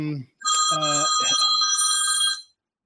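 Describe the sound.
A cell phone rings with an old-fashioned bell-style ringtone, a bright, continuous trilling ring lasting about two seconds before stopping, just after a brief voice.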